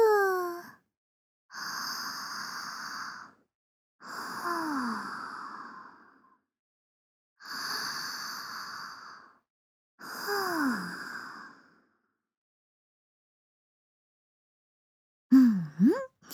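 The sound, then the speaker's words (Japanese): Slow, deep breaths in and out, five long airy breaths with pauses between them, some exhales carrying a soft voiced sigh that falls in pitch, then a brief final breath; quiet and close, with no talking. “深呼吸してみようか。深呼吸すればきっと緊張も解けるよ。じゃあお兄、一緒に深呼吸。”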